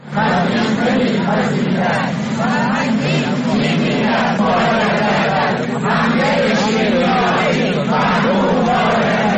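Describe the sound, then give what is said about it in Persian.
Protesting teachers at a rally in Kermanshah chant together in a loud, steady, rhythmic roar of many voices that does not let up. “این صدای معلمان در کرمانشاه در تجمع امروز بود”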